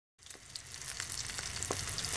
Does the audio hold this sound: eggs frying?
yes